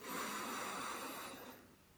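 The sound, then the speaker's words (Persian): A long, deep breath drawn in during a guided meditation, a steady airy rush held for over a second before it tapers off and fades. “با این نفس دم عمیق بزرگ بلندترین نفسی که تمام روز کشیدی”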